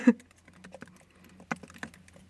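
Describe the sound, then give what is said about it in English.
Fingers typing a long password on a computer keyboard: many quick, irregular key clicks of varying loudness, with one sharper click at the start and no talk. “Well, the screensaver's come on again, and now you need to type your paragraph of a password.”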